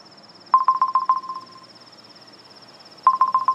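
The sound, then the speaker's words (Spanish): A phone rings with an incoming call, sounding as a rapid electronic trill of short, evenly pulsing beeps. A pause of about two seconds follows before the next trill starts, all over a faint, steady high whine. “Ay, ahora me está llamando.”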